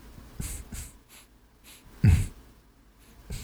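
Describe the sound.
A voice imitates heavy breathing into a microphone, making a few soft, breathy puffs, then one louder, snorting huff before more faint exhales.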